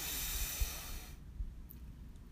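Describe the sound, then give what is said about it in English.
Deep breath during a meditation exercise: a long, airy inhalation for about a second, then softer, quieter breathy noise as the air goes out, with no talk. “So let's breathe in and out. Breathe in”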